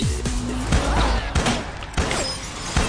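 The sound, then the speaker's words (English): Gunfire as warning shots in a film scene from Murder Mystery: a few sharp bangs at irregular intervals over a busy soundtrack, each a short loud burst. “Shoot at him! Those were warning shots, honey!”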